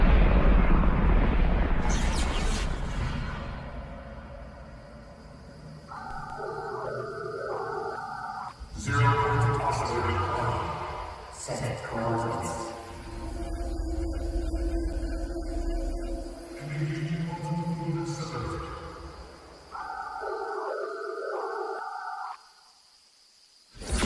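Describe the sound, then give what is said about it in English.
Rocket launch audio from a Fortnite live event as the rocket hits the sky: deep rumbling roars and whooshing swells with eerie, whale-like tonal cries and repeated electronic tone patterns. “I tried to turn this up so everybody could hear it. But this is right after the rocket takes off and right as it hits the sky, what happens next?”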